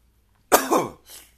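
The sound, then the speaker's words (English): A person with a stuffy nose, ill with Covid, coughs once harshly and then gives a shorter, softer cough right after. No other sound is heard. “when I cough like that, I can fucking feel it still”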